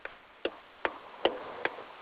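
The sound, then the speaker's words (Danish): Car turn-signal indicator ticking: a faint, steady series of sharp clicks, evenly spaced at about 0.4-second intervals, with no talk over them. “Det er et vildt blinklys, det er et meget smukt blinklys.”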